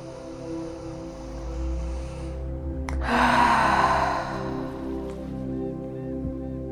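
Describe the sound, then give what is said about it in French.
Deep breathing during a guided meditation, in through the nose and out through the mouth. One airy, noticeable exhale rises over a soft, steady musical drone. “prenez trois grandes inspirations par le nez et expirez par la bouche.”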